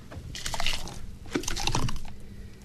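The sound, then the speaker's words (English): Margarita slush is slopped from a container into two washed glass food jars, making wet, squishy sloshing in two soft bursts, fairly quiet and alone. “He takes down two washed and clean food jars and slops some margarita slush into each one.”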